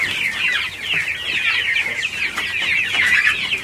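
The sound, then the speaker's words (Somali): Chickens clucking at a poultry farm holding around 700 birds, a dense, continuous chorus of overlapping clucks and chatter from many hens, fairly loud and steady throughout, with no voices. “waxaan ku booqanay mid ka mid ah xarumaha uu ku xanaaneeyo digaagta taas oo ay ku xareysan yihiin ku dhawaad 700 oo digaag ah”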